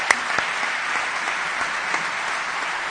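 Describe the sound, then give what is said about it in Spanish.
An audience applauds a music group at an event, a steady, even wash of clapping with a couple of sharper claps near the start, lasting about three seconds. “Vamos a dar un aplauso al grupo, los miembros del grupo Caramancho,”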